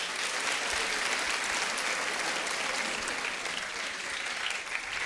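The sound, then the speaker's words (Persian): Dense audience applause at a religious gathering celebrating the birthday of Imam Reza. Many hands clap loudly and steadily as a continuous wash of sound for the whole stretch. “امشب آقا رولا میگن خیلی عرفانی شد، کارو میبریم یه جای دیگه، یه کف مرتب بزن.”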